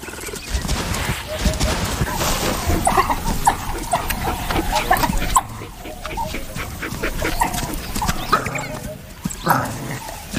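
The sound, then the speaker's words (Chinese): Calls of an African wild dog summoning the rest of its pack after finding a leopard with fresh prey, repeated yelping and whining cries in a busy, continuous stretch, with people talking over them. “一只非洲野犬在巡逻途中发现了一只刚刚捕获猎物的花豹， 他正在召唤其他非洲野犬来帮忙。”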